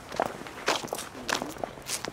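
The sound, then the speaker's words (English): Footsteps walking down stairs outdoors in a cemetery garden, several crisp, slightly irregular steps, fairly clear, with no talk. “we'll go down these stairs and get cut through.”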